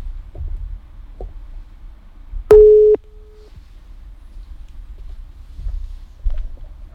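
A telephone ringing tone as a caller dials a listener chosen in a prize draw: one short, steady tone burst that fades into a fainter tail, over low background noise.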